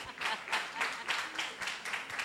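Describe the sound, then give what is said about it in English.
Faint rhythmic clapping from a church audience applauding a quiz winner, many sharp bursts falling on a steady, even beat with no voices standing out. “Oh, please, yes, let's clap for the gentleman. Has the answer. Hey, people are not happy he's about to win. Please clap for him.”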